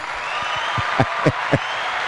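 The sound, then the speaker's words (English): Live studio audience applause, a steady wash of clapping with a few sharper, louder claps standing out in the middle. “there's the live studio audience”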